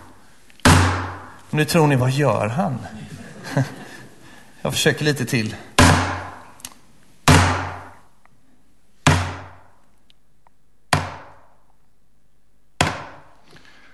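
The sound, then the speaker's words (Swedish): Knocking imitates constant construction hammering: several loud, separate thuds with sharp attacks and short decays, spaced irregularly and slowing toward the end. A man speaks between the early knocks. “Och vissa dagar då jag sitter hemma och arbetar med till exempel en sån här predikan så kan man höra ett ständigt hamrande som låter ungefär så här.”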